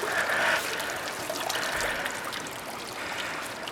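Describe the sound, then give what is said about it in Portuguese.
River water moves around a man's hands and head as he kneels at the bank with them submerged, giving a soft, continuous trickling flow with gentle swells. “Joaquim está com as pernas apoiadas na margem do rio, com as mãos e a cabeça imersas na água.”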